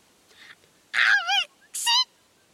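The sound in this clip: A performer voices a bird character singing loudly, with a faint short note followed by two loud, warbling bursts full of wavering vibrato and separated by brief silence.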